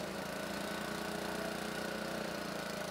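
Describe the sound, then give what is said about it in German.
Steady, dense mechanical drone from a rapid track renewal train loosening the small rail fastenings on sleepers, the first step in replacing sleepers along roughly 900 metres of railway in Lower Saxony, Germany. The engine noise is loud and even throughout, with no talk. “Der Schnellumbauzug Mammut soll heute auf gut 900 Metern Schwellen austauschen. Schritt 1, die sogenannten Kleineisen lösen.”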